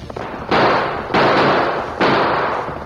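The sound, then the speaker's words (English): Three gunshots ring out during a stagecoach holdup by outlaws. Each is a sudden, loud crack with a long fading tail, and the shots are unevenly spaced with no talk between them. “two men with their faces partly covered alongside the stage with drawn guns. Outlaws, Tonto, two of them, holding up the stage. Draw your guns.”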